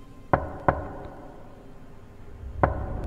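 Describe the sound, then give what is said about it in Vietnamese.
Three sharp knocks on a door on a winter night: two come close together, then a third follows after a long pause. Each is short and crisp against a quiet background. “Hình như là có tiếng gõ cửa đâu đây.”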